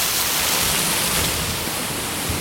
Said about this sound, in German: Durchs Fulauer Tobel zum Fulauer Wasserfall.